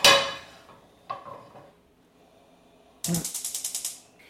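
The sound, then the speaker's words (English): A cooking pan is taken and handled: a sharp metallic clang, a second lighter knock, then after a pause a quick rattling run of about eight clicks, all fairly faint and without talk. “So we're gonna get our pan.”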